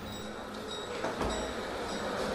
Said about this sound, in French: On entend, c'est quoi ? C'est le train ? C'est voilà, gare ? Là on est sur un boulevard parisien, en juillet 1886, on se dirige vers la gare, donc on entend finalement la vapeur des trains.